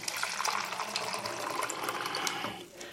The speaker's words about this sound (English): Just get some rinse in now.